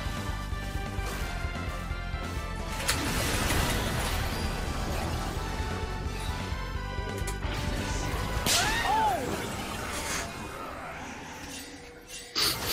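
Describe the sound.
League of Legends spell effects as Sona casts her Q, a dense, loud layer of magical whooshes, whip-like cracks and crashing impacts, with a ringing tonal sweep rising and falling near the end.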